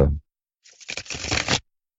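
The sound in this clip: A magician's playing cards get shuffled in one brisk riffle lasting about a second, a dry papery flutter that builds and then stops abruptly into silence.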